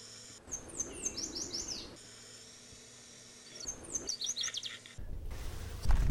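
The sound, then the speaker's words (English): A yellow warbler sings from a blossoming shrub beside a farmhouse, giving two faint bursts of quick, high chirping notes separated by a quiet pause. A low rumble rises near the end. “the yellow warbler sings as soon as the shrub blossoms next to the farmhouse. I glanced out the window, and sure enough, there are blossoms on the shrub. There it is”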